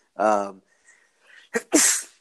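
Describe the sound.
A single human sneeze: a voiced, breathy lead-in followed after a short gap by a sharp, loud, hissing burst that trails off.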